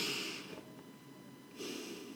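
Someone takes a deep breath before praying. It comes as two soft, airy rushes of breath separated by a short pause, very quiet and with no other sound.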